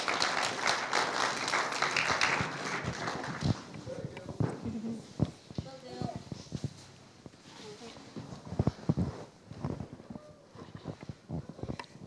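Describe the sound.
Audience applause welcoming a speaker, dense sustained clapping for about three and a half seconds that then thins out into scattered claps as a person begins talking.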